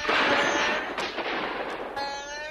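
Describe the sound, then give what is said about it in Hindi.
A gunfire sound effect of soldiers firing in a battle against villagers shooting arrows: a dense, continuous crackling roar with a few sharper cracks standing out, then a steady tonal layer near the end. “सिपाहियों ने गोलियों की भयानक बरसात कर दी।”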